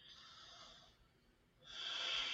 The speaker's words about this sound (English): just take a couple of deep breaths.